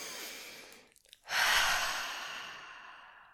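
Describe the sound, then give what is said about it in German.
Deep breath in and out during a guided reflection exercise: two long, airy breaths separated by a short pause, the second louder and slowly fading. “Wenn du soweit bist, machst dir bequem, atme nochmal ganz tief ein und aus.”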